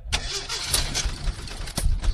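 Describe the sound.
A car engine being started, a loud, rough churning crank with a few sharper bursts that runs throughout the short stretch.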